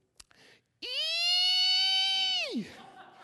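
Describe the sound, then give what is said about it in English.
A young girl squeals excitedly at a seashell during a beach house stay. The high-pitched squeal holds steady for nearly two seconds, then slides down in pitch, after a couple of brief soft sounds. “that is the excited squealing noise that she makes anytime she sees pretty much any seashell at all”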